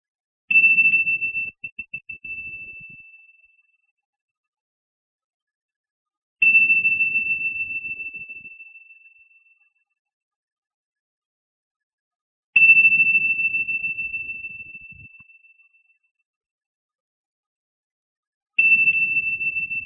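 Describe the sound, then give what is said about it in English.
Tibetan bells ring in four separate strikes about six seconds apart. Each is a clear, high, sustained tone with a soft low knock at the onset, fading slowly to near silence before the next. “you may hear some Tibetan bells on and off in the background from starting from right now.”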